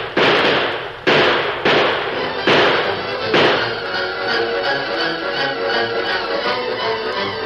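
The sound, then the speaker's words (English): Rifle gunfire in a radio drama shootout against raiders: five sharp, loud shots crack at uneven intervals, then a lingering rough rumble carries on with no voices. “Fire as fast as you can. If we don't drive them off, we all die.”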